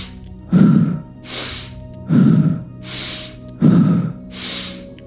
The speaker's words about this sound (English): feeling that breath coming in through your nose, whipping down through your body and coming back out the mouth. Feeling that circular motion with the breath.